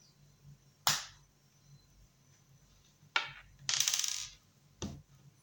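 Fragile glass ampoules, some with dotted break points, being snapped open with gauze: four sharp, bright cracks spaced apart against near silence, one followed by a brief rattling clink.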